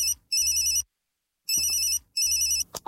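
A telephone ringtone rings in repeated bursts of bright electronic tone, separated by short silences, with a brief click at the end and no talk.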